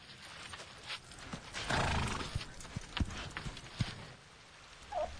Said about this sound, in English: goes off with the horse.